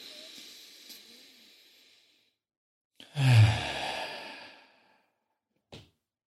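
Two men take a deep breath together, heard as one loud, breathy rush of air lasting about two seconds that fades out, after a faint stretch of low noise and followed by a brief soft click.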